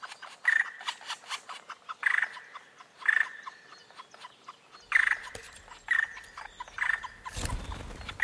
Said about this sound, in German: Nun wird es ernst für die Kleinen. Die Altvögel locken.